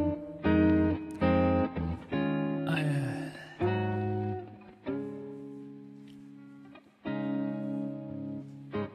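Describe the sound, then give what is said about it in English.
Sound run through a cheap reverb effect: a run of buzzy, held harmonic notes, each ending in a washy, lingering decay, with a brief noisy burst partway through. “It's a cheap reverb.”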